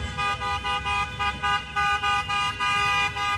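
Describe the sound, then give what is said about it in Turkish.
Car horns honking repeatedly from a convoy of Turkish fans greeting Turkey's national football team in Los Angeles before their last group D match against the USA; many loud, overlapping blasts arrive in a steady pulsing rhythm. “Türk taraftarlar A milli takımı Los Angeles'ta yalnız bırakmadı. D grubundaki son maçında ev sahibi Amerika Birleşik Devletleri ile karşılaşacak Ay Yıldızlılar araç konvoyuyla karşılandı.”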